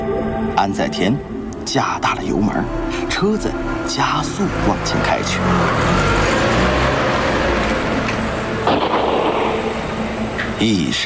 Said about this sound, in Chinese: 车子加速往前开去。